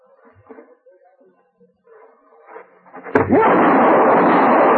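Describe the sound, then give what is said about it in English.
A single sharp gunshot from a Derringer pistol cracks out after faint talk. It is followed at once by a loud, sustained, noisy wash that holds to the end. “Don't move, Andy. There's still one bullet left in this Derringer. You killed Feslin.”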